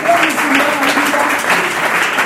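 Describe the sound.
A church audience applauds during a service, clapping in praise of the Lord: loud, continuous clapping with some voices cheering through it.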